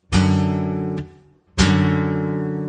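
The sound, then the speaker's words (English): An unusual guitar chord voicing, derived from a C4 bar chord shape, is strummed twice, each strum ringing with a bright, full, slowly fading sustain and a brief gap between them. “Here's an example of a pretty unique shape that's derived from this C4 bar chord in this position. It sounds like this.”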